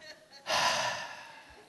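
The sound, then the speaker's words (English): A group of people take a deep breath together, heard as a sudden, loud, breathy rush of air that begins abruptly and slowly fades as the inhale is held. “Everybody take a deep breath with me right now.”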